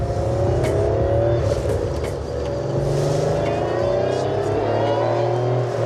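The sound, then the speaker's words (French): A Porsche engine revving, a loud continuous raspy drone with strong low harmonics held steady throughout, pitch nearly level with a slight dip midway and no talk over it. “Le son que vous entendez là, c'est un peu comme si on faisait tourner un moteur de Porsche avec une scie circulaire en même temps, le tout dans une boîte de conserve.”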